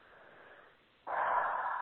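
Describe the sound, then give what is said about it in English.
A deep breath: a soft, airy inhale, then a brief pause before a louder, steady exhale out through the mouth. “as you begin to take a big breath in through the belly, down to the belly, up and back out through the mouth”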